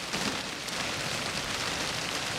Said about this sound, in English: rain dribbling off his face